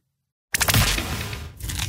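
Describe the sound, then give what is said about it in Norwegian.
Crunching from someone biting into and eating shrimp: a loud, dense, continuous crackly chewing noise that starts abruptly after a moment of silence and carries on steadily to the end. “Spiser du reker?”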